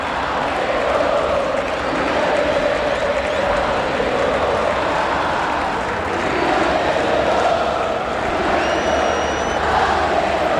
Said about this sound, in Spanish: Cantan los hinchas de Instituto en una linda tarde.